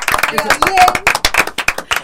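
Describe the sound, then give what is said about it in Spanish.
A short burst of clapping for the studio operator on a talk program, with sharp claps mixed under overlapping voices. “Un aplauso para el operador, que es el que hace que salgamos al aire.”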